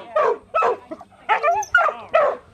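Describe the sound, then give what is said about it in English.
A dog barks repeatedly in sharp, mid-pitched bursts separated by short pauses, the barks loud and clear with no other voices in between. “Why are you barking”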